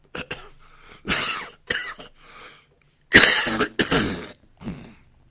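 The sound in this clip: Coughing and throat clearing brought on by allergies: a series of short, harsh coughs and rough throat-clearing bursts in uneven clusters, with brief pauses between them, fairly loud and without other sound.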